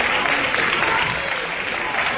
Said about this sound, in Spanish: Aplaude la afición del Sevilla al jugador Javi Pérez, que ha salido lesionado del campo.